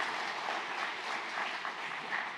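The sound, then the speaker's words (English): Applause from an audience at a religious gathering: dense, steady clapping from many hands, sustained at an even level throughout with no voices standing out. “Let's give him applause. All the praise, all the applause due to Jesus Christ.”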